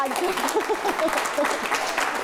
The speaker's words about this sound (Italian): Facciamo l'applauso a queste serate!